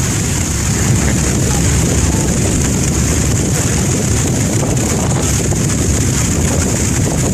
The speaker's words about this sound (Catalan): Espera un segon, que he trobat un vídeo d'una mànega marina i no sé ben bé si se sentirà bé, a veure. És un vídeo a YouTube.